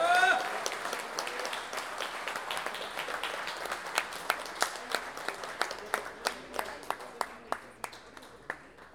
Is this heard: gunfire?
no

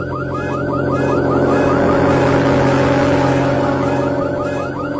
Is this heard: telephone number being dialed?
no

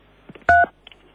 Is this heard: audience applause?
no

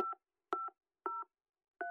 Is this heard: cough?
no

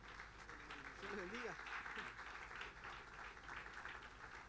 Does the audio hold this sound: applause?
yes

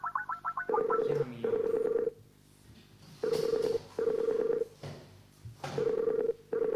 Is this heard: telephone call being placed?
yes

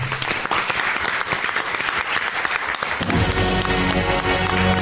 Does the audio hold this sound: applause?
yes

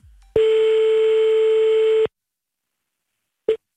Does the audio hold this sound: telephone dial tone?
yes

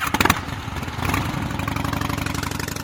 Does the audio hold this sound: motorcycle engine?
yes

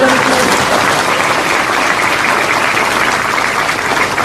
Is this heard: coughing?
no

